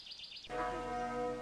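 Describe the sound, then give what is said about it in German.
A pilgrimage basilica's church bell strikes once and hangs in a sustained, humming tone, softly heard, after faint bird chirps at the start. “Die Glocken der Basilika sagen ja.”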